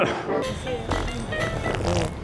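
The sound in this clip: A fart, one drawn-out rumbling blast with a buzzy, sputtering texture and a few uneven pulses, fairly loud throughout.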